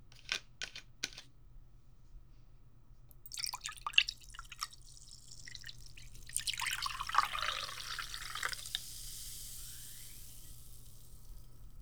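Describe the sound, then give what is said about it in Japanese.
A drink poured into a glass. A few sharp clicks and small drips come first, then a few seconds of steady, bright trickling as the liquid flows, fairly quiet and with no talk. “先生も自分の分を注いでっと。”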